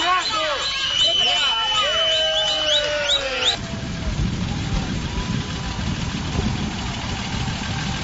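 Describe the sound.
Heavy trucks arriving at a protesters' road blockade near the Monsanto site access, with a low, rumbling idling engine. Several voices talk over the first few seconds, then the deep engine drone continues alone at a steady level.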